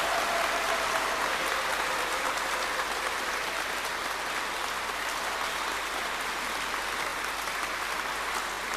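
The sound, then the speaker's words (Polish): Pilgrims on a pilgrimage to Jasna Góra applaud in a dense, steady wash of clapping that holds at an even level throughout, with no voices standing out. “I teraz słuchajcie, zróbcie taki wielki aplauz, tak aby i bez mikrofonu było Was słychać w radiu. Myślę, że będzie to słychać.”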